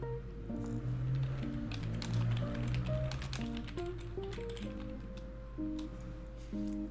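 Rapid typewriter-style typing with many quick keystrokes, sounded alone over steady sustained tones underneath, at a fairly even level throughout.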